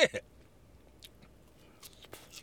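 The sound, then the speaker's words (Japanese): Crunchy chewing of freshly deep-fried mehikari fish, opening with two sharp bites followed by scattered faint, crisp crunches at irregular intervals. “メヒカリの唐揚げいただきますあうまいうまい”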